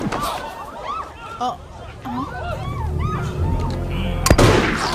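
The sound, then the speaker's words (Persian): A gunshot: a single sharp, loud crack near the end, following several seconds of overlapping voices and background babble. “یکی داره بهتون شلیک میکنه ولی من نیستم”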